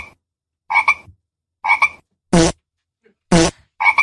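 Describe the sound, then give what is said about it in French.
Toads croak in five separate bursts spaced through the stretch. Some calls are nasal double-pulsed croaks and others are harsher, buzzier rasps, all loud and alone against silence. “Que les crapauds parce qu'il y a d'autres sons indésirables.”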